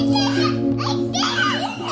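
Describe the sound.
Children playing in old home videos from Syria, with young voices chattering and giggling over a steady low hum.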